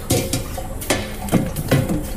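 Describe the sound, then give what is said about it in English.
Metal clatter as an oven tray is emptied and handled in a kitchen, with several sharp scraping knocks and rattles at uneven intervals. “It's taking forever to empty. There we go. This bloody oven tray.”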